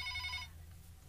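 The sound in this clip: A telephone ringing with an incoming call on a call-in line: a single short, bright electronic trill that stops after about half a second, fairly faint.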